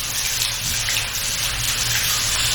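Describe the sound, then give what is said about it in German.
Water running steadily from a tap while rinsing hair after a vinegar rinse, a continuous, even hiss and gush with no breaks. “Sollen wir nochmal spülen?”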